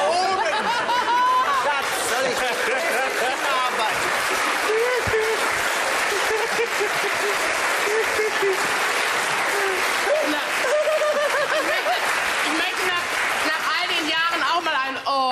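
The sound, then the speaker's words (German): Audience applause, dense and loud, fills the whole stretch as one steady wash of clapping, with scattered voices and a few chuckles mixed in. “Sie brauchen nicht mehr zu klatschen.”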